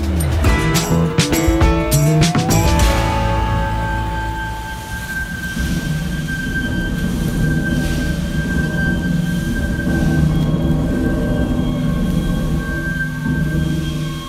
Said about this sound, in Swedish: Vi står framför The River Don Engine på Caddam Island i Sheffield. En ångmaskin byggd 1904. Vi hör tjutet från ångvisslan,